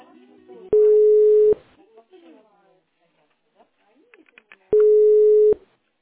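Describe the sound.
Telephone line tones while a school's call is transferred: two long, steady mid-pitched beeps a few seconds apart, with faint voices in the gap between them.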